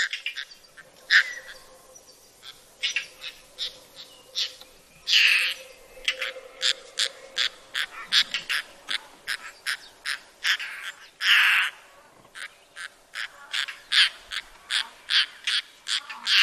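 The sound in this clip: Calls of a declining bird species played back from a recording: many short, sharp notes in irregular bursts, some longer, louder squawks among them, with brief quiet gaps between, fairly faint overall.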